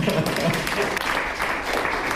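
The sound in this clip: Audience applause at a civic gathering addressed by a city mayor: continuous, dense clapping at a fairly even level throughout, with no clear pauses.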